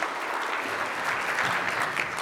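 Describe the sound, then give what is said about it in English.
An audience applauds to welcome a speaker to the platform at a church teaching service, with brief, steady, even clapping and no break. “And so if you would, just help me welcome her to the platform for our time of teaching.”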